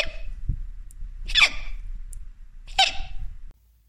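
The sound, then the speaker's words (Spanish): A voice imitates a little sheep hiccuping after gobbling a carrot too fast, giving two sharp, breathy hiccups about a second and a half apart, fairly loud, with quiet low rustling around them. “La ovejita se comió la zanahoria tan rápido que le entró el hipo.”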